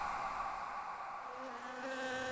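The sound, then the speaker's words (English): Bees buzzing in a steady, continuous drone, a fairly quiet, even hum that holds throughout with no voices. “You hear that? Those are bees.”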